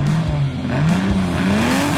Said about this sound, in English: Feel the engines rumble, smell the burning rubber, and take in the pulse-pounding action of side-by-side racing.